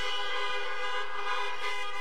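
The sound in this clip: Car horns honking during a church service, with overlapping sustained blaring tones held steady and loud for the whole stretch, no talking.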